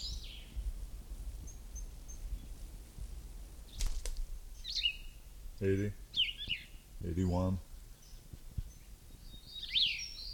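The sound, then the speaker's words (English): Bird calls: a few short, high chirps and trills scattered across about ten seconds, set against steady low background noise with other low sounds in between. “This is bird number one again.”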